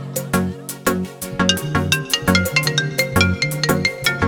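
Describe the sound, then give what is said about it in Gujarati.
Melodic phone ringtone sounding after a call is placed, a bright synthesized tune over a pulsing, repeating bass line, loud and alone throughout. “બોલો તો સરી, દેવરજી ને phone કરો.”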